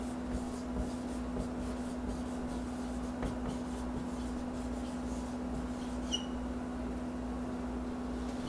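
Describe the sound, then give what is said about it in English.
Handwriting: a pen scratching words onto paper, producing a faint, steady scratching over a constant low electrical hum. “I'll write them down.”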